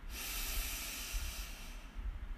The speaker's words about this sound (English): Deep breath in and out. deep breath in